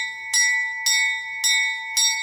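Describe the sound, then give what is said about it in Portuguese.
An old railway station bell at a train museum in Recife rings four times in an even rhythm, each bright metallic strike sustaining a high, clear tone that decays before the next. “O toque do sino já foi um sinal de partida para milhares de passageiros.”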